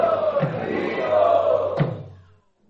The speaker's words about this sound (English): Let us welcome him in our traditional style by loudly chanting, Hari Bol, Hari Bol.